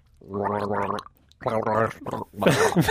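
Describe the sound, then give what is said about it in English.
A person gargles water in the throat, making a voiced, bubbling gurgle in a few loud bursts separated by short pauses, with no talk. “And the sound it makes is a gargle.”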